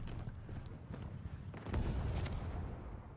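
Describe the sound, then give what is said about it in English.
Heavy blasts and rumbling gunfire-like bangs from an orbital ordnance bombardment in a video game, a dense, continuous barrage that swells louder partway through. “Ordnance dropping from orbit.”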